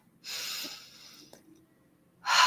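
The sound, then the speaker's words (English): A deep breath inhaled: an airy, hissing intake lasting about a second, followed by softer breathing, then another loud breath at the very end. “take a deep breath”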